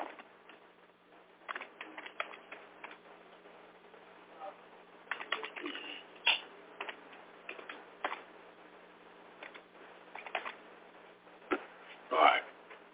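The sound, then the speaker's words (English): Computer keyboard typing as text is entered in large type in a word-processing document; a few scattered, sharp clicks and short bursts of keystrokes, fairly faint over a low background hum. “let me try to put this in word up here real big and type it up really big.”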